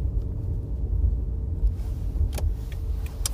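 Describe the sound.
Steady low road rumble inside a moving car, a deep continuous drone with a few faint ticks near the end.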